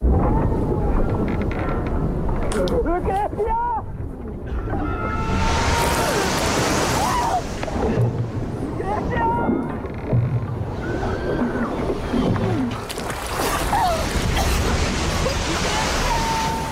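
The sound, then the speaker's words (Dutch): Creaking of a boat on water, used as a sound effect: drawn wooden groans and squeaks rise and fall over a continuous rushing wash of water. “deze geloof ik het geluid van de boot en ja, het water, gekraak.”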